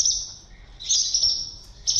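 Swallows chirp at their nests under a bridge being built, giving a steady high-pitched twittering. It swells into brighter bursts a few times, with no voices.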